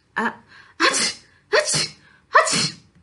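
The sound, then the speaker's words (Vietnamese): Four sneezes ring out from outside a door, each a sharp, loud burst with a breathy trailing tail, spaced evenly less than a second apart with no talking. “Đột nhiên, ngoài cửa vang lên mấy tiếng hắt xì hơi, cắt ngang nửa câu sau của Công Tôn tiên sinh.”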